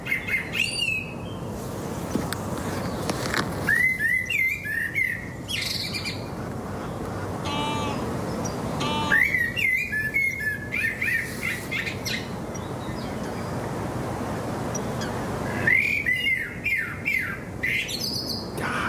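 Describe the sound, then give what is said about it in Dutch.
A blackbird sings in several fluting, warbling phrases separated by pauses, with a soft, steady hiss in the background throughout. “Kievieten, wulpen en deze merel van Trix Volkers uit IJsselstein.”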